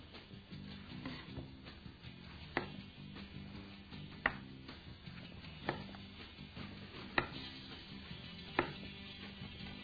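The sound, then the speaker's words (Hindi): A knife chops a tomato into thick slices with five sharp, faint cuts spaced evenly about a second and a half apart over a low, steady background. “Tomato, tomato के थोड़े से thick slice हमें चाहिए होंगे,”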